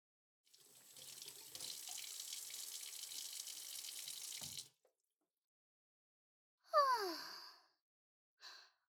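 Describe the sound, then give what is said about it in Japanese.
Water runs from an outdoor tap as a skirt is washed under it: a steady rushing stream for about four seconds that stops abruptly, followed by a short falling sigh-like voice and a brief breath. “あそこの水道で洗ってから行くんで。”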